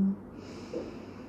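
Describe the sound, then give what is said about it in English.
One deep breath drawn in during a guided breathing exercise, a soft, airy inhale that is faint and heard alone with no voices. “Let's take one more breath before we start. Breathe in two”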